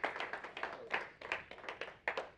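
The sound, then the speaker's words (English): Congregation clapping hands during a church service: faint, scattered claps in an uneven rhythm, many separate strikes rather than a continuous roar. “Can we give the Lord a hand clap this morning?”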